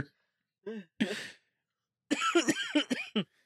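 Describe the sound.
A person coughs in short, hoarse bursts: a couple of quick single coughs, then a longer run of several harsh coughs with throat clearing, separated by brief silence.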